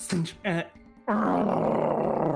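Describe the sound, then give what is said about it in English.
A voice imitates a creature growling back during a tabletop fantasy game. Two short, guttural bursts come first, then a long, sustained rumbling roar. “Growls back at you.”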